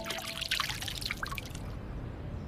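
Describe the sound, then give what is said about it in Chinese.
Excess rendered fat from meat being stir-fried is poured off in a steady trickling, dripping wash of liquid that thins out slightly toward the end. “把这个油逼出来以后啊，它外焦里嫩嘛，咱们倒入这个多余的油。”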